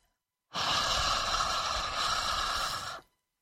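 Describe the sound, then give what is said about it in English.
A voice holds a sustained unvoiced H fricative for about two and a half seconds, a steady breathy hiss of even loudness that starts and stops cleanly. “Fricatives are continuous consonants, so I can hold the sound for a long time. Holding the H sound sounds like this.”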